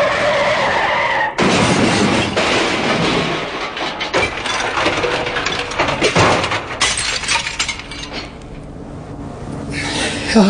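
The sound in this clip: A car brakes hard and skids for about ten seconds, a loud, harsh, sustained tire screech with rough noisy bursts that tapers off slightly toward the end.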